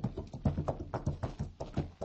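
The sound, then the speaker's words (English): Steady clip-clop of hooves from a horse ridden bareback, a quick, even run of muffled beats at a moderate level, with no voices. “from the looks of that rider heading this way, I wouldn't say it was lonely. Hey, he's riding bareback.”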